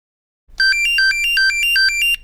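An electronic telephone ringtone sounds alone: a bright, high, warbling trill of rapid, alternating tones that pulses steadily for about two seconds.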